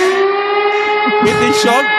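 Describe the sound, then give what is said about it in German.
A steady, sustained siren tone holds at an even pitch under a voice talking over it. “Sirene”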